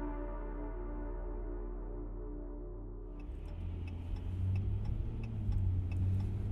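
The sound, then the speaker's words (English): A car drives down a street lined with orchards on the outskirts of Emmett, its engine a steady, faint low drone, joined partway through by a soft, regular ticking. “We're on the outskirts of Emmett, driving down a street with orchards on every side.”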